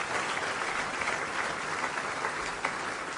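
Dense, steady applause from an audience at a political party gathering fills the whole stretch. Many hands clap at an even loudness with no voices standing out.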